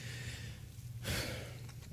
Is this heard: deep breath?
yes